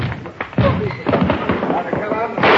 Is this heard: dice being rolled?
no